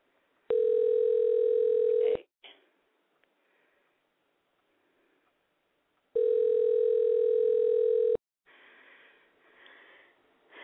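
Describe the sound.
Telephone line tones sound as a phone call is placed: two long, steady, buzzing tones of about two seconds each, separated by a few seconds of near silence, followed by faint noise on the line.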